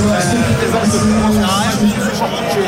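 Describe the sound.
Dense, loud crowd hubbub fills the streets of Lens as a huge gathering of about 80,000 fans greets the team bus parade, a steady roar of many overlapping voices with no breaks.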